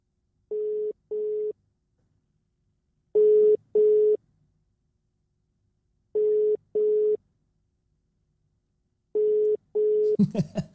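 Ringback tone of an unanswered phone call: four evenly spaced pairs of steady, mid-pitched beeps separated by silence, the last pair running into a brief noisy burst.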